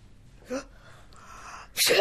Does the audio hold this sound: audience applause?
no